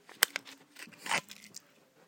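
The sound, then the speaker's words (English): A crisp bite into a mince pie gives one sharp crunch, then a few softer crumbly crackles and chewing sounds, all fairly quiet. “I'm just doing an audio boo about my first mince pie of the year. Hallelujah to that.”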